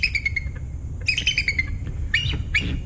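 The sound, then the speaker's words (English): A bald eagle calls in a few bursts of high, thin, piping chirps and chittering notes, some stepping downward, over a steady low background rumble. “You might not realize it, but that's the sound of a bald eagle.”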